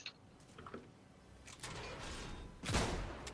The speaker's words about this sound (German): Oh, ja, ich habe aus Versehen geschossen statt markiert.